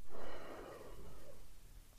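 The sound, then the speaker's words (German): A deep breath drawn into the belly during a guided breathing exercise, heard as a soft, airy hiss that swells at first and then gradually trails off, with no talk. “Atme einmal tief ein in den Bauch”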